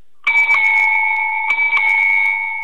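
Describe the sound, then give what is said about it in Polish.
A bicycle bell bought in Amsterdam gives a bright, steady two-tone ring that sustains throughout. A few lighter strikes sound on top of it, loud and alone. “jaki sobie kupiłem ostatnio dzwonek w Amsterdamie do roweru”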